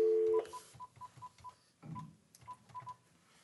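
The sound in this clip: Touch-tone keypad beeps as a number is dialed on a speakerphone line: a steady tone at the start, then many short, even beeps in two quick runs separated by a brief pause, over a low hum.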